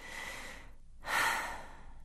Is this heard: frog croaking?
no

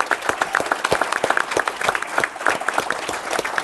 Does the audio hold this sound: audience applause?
yes

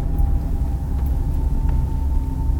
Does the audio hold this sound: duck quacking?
no

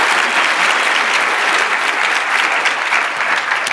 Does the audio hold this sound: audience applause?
yes

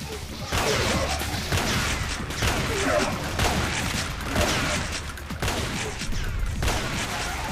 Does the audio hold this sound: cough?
no

